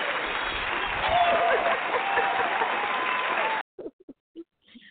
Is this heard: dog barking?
no

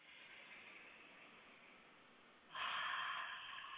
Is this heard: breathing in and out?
yes

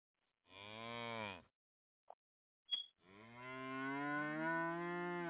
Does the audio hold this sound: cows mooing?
yes

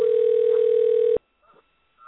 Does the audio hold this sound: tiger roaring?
no

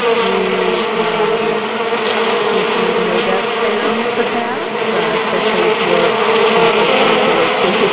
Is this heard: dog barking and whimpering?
no

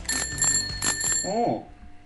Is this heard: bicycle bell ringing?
yes

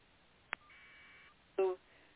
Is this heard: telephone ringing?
yes

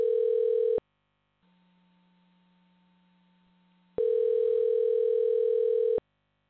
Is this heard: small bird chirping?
no

